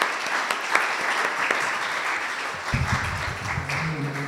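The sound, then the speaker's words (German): Audience applause for a speaker at the close of a talk at a Brecht reading: dense, steady clapping that holds an even loudness for the whole stretch. “Ich wünsche mir nochmal einen Applaus für Mike.”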